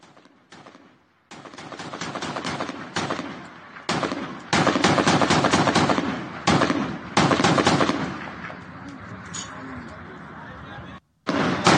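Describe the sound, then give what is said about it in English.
Small arms fire aimed at helicopters in the distance: dense, crackling volleys of rapid shots rattle on in long bursts, separated by short pauses. “But you can see helicopters off in the distance and small arms fire at them.”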